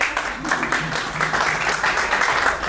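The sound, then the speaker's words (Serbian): An audience applauds a man just introduced to speak, with continuous, fairly loud clapping from many people that holds steady for the whole stretch. “Izvolite. Aplauz za”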